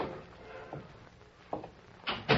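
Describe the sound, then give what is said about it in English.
An office door opening: a few soft knocks and thuds, the last two louder and sharper, over a faint steady hiss. “The two-gun lawman from Oklahoma Territory was alone in the office when Baker of the Secret Service opened the door.”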